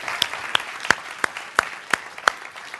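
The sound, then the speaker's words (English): Hand clapping from an audience at a church service after a song: seven sharp, evenly spaced claps at a brisk steady rhythm, with low crowd noise between them. “could you just give him one more, just an applause, a round of a hand clap”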